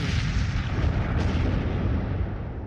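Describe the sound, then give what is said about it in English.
Demolition charges go off and destroy an industrial plant, making a dense, unbroken roar of blasts and low rumble with one sharper crack near the middle. “Jane drops her charges of destruction. And chaos reigns!”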